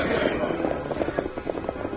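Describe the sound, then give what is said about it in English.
Gunshots fired by approaching riders, a radio drama sound effect: many sharp, rapid pops in a ragged volley over steady background noise. “Those riders are getting nearer. They're shooting. All right, back into the hills, Ollie, and don't return their fire.”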